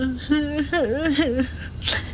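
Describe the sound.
A person cries in a wavering, sobbing wail whose pitch bends up and down in tremulous swoops, broken by short pauses for breath.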